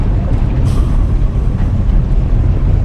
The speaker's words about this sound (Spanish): Hace mucho ruido. ¿Podemos apagar el motor?